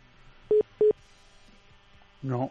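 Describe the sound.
Two short telephone keypad tones dial to set up a three-way conference call. They are evenly spaced and steady in pitch over faint line hum, and a brief voice follows near the end.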